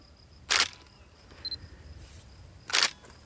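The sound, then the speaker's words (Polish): Two crisp camera shutter clicks, spaced about two seconds apart, as a turtle is photographed from above before marking. A faint short electronic tone sounds between them. “robimy tak, zdjęcie z góry, przed oznakowaniem, po oznakowaniu plastronu i policzka.”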